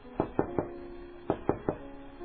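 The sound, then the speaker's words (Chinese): Gentle knocking on a door comes as two sets of three soft, quick raps separated by a short pause, faint and alone. “有一天，有一个人轻轻敲门”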